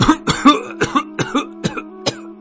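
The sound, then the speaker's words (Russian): An old man breaks into a coughing fit, a rapid series of many short, harsh coughs in an uneven rhythm, fairly loud and with no talk over them. “Старик указал на настольную игру и хотел было сказать что-то еще, но зашелся в кашле.”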